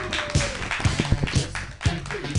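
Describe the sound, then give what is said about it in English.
Scattered claps from an audience welcoming a comedian onto a stage, a handful of sharp, uneven hand claps rather than full applause. “Put your hands together for Dan Britton.”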